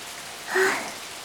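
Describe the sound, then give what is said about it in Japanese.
Heavy rain falling in a steady, dense hiss that swells briefly in the middle, with no voices. “こう大雨じゃ商売やがったりよ。もう今日は早じまいにするかね。 この雨、止む様子がないです。”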